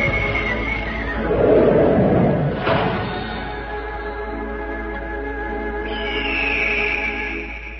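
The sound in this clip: A horse gives a loud whinny at the start, its pitch falling as it fades, with sustained music beneath it.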